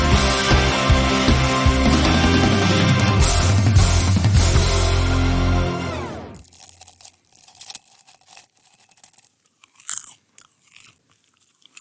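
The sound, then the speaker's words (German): Popcorn being eaten: loud, dense crunching and chewing fills about six seconds, then gives way to fainter, scattered crackles and mouth clicks. “Popcorn. Irgendwie so richtig lecker und ich habe noch ganz schön viel im Mund”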